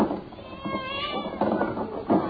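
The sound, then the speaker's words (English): Cats meow in a few wavering, drawn-out cries of middling pitch, one overlapping another, with faint rustling underneath. “Those are Panama cats? Hey, I know those cats. They look like plain cats to me.”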